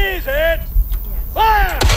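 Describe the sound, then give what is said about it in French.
Musket fire at a historical reenactment of the 1776 siege of Fort Cumberland in New Brunswick: one sharp, brief report cracks out near the end, after loud voices that rise and fall. “Des tirs au mousquet, comme en 1776, lors du siège du Fort Cumberland.”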